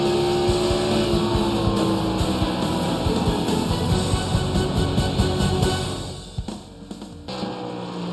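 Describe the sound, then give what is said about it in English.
Race car engines from the iRacing sim racing game during an eNASCAR All-Star race on a virtual Iowa Speedway: a steady, droning engine roar of layered tones that thins out near the end. “The action is continuing for the virtual Iowa Speedway, and you didn't miss a thing as we're now inside of the final 10 laps of this eNASCAR iRacing All Star Race.”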